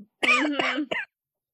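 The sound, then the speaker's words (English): A harsh cough and throat clearing from someone with a frog in their throat, a rough voiced burst and then a shorter rasp, followed by silence. “Excuse me, I got a frog in my throat.”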